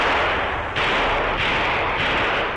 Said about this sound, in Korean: 거리 한끝에서 총소리가 울려왔다.